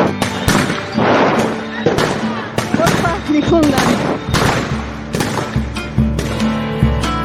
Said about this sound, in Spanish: Están a los tiros con las camionetas persiguiéndolos por las calles.